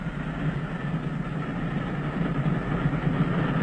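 Continuous low rumble of a train, a steady mechanical drone with no clear changes. It sounds alone, without talk.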